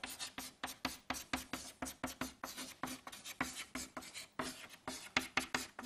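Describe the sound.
Handwriting produces many quick, rhythmic scratching strokes, faint and evenly paced, with short pauses between bursts.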